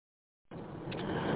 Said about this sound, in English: Just driving along at the moment. Wondering if you can hear too much road noise in the background.